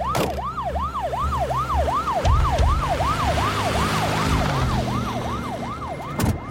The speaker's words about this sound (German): Folgen Sie bitte dem Krankenwagen.